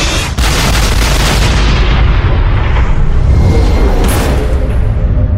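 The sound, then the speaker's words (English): Heavy artillery explosions and gunfire from all of a battleship's weapons firing at once: a loud, continuous roaring barrage of dense overlapping booms that does not let up. “Fire. Sir, which weapons? All of them.”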